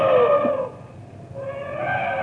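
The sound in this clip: A charging elephant trumpets in a radio drama, two loud brassy harmonic blasts separated by a brief dip.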